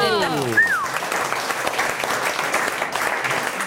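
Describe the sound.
Audience applause at a French quiz game about ice hockey, a dense, steady clatter of clapping that holds loud across the whole clip, with a brief whistle rising and falling near the start.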